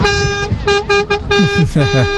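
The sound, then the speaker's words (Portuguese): Car horn honking in a string of about six bursts, some short and some drawn out, each a steady, bright tone, with people talking underneath. “Tá aí o buzinar. Pode buzinar, mano. Pode buzinar.”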